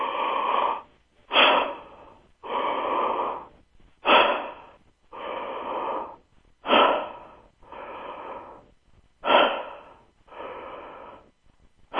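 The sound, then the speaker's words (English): Deep, full breaths taken one after another, each loud inhale followed by a long, slower exhale in a steady, even rhythm, with no talking. “Take five is simply throughout the day, take five full way breaths.”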